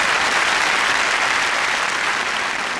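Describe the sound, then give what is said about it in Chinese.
An audience applauds before a performer's demonstration at a show: loud, dense, continuous clapping that stays steady and easing only slightly toward the end. “借这个机会，今儿哎，咱来点掌声，让他给大伙展示一回”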